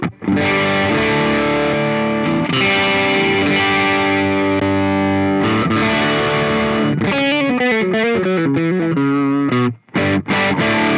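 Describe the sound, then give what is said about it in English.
Distorted electric guitar from a 2023 Squier Paranormal, its two pickups run in parallel in the middle position for a humbucker-like tone; long sustained chords ring out, then give way to quicker picked notes near the end. “So the volume knob, if you pull the volume knob out, I think it goes into a parallel. So it kind of turns the two pickups into humbucker, but only in the middle position.”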